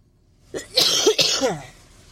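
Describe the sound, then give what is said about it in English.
A man coughs in a short, harsh burst of a few raspy coughs with throat-clearing, heard alone against quiet. “excuse me, I had to do one last cough in there”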